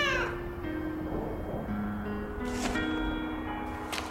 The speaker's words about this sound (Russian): кошка идет за ней.